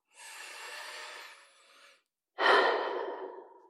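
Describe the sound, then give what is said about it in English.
A deep breath taken during a guided relaxation exercise: a long, soft inhale of about two seconds, a brief pause, then a stronger, rushing exhale that gradually fades. “Now, we're going to take three deep breaths.”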